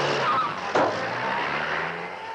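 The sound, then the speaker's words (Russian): A yellow Volga taxi drives up fast to an apartment block entrance and brakes hard. Steady engine and road noise runs throughout, broken by a brief, sharp, louder burst of braking early on. “Такси быстро подъезжает к многоэтажному дому, резко тормозит перед подъездом.”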